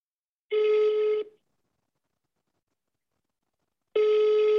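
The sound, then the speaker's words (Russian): Telephone ringback tone as a call is placed: two steady, mid-pitched buzzing tones, each under a second, separated by a long silent gap. “Давай позвоним. Набирай.”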